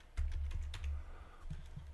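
Typing on a computer keyboard: a steady run of many soft, quick clicks over a faint low hum, with no talk.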